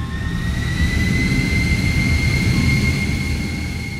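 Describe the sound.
Steady engine roar of a spacecraft on landing approach with its landing gear deployed, a dense low rumble topped by a constant high whine, holding even loudness for about four seconds with no voices.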